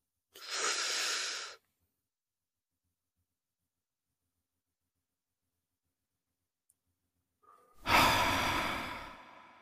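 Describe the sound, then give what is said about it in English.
A slow, deep breath in and out during a guided breathing exercise: a long airy inhale, several seconds of silence, then a longer and louder exhale. “Let's go ahead and inhale peace.”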